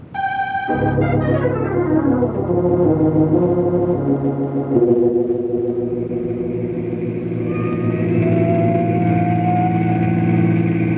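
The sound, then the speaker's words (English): A car engine running while driving fast through city intersections. It makes a loud, continuous humming drone whose tones slide downward in the first seconds and then hold steady. “Step on it, but watch the intersections. Hey, that car coming against us!”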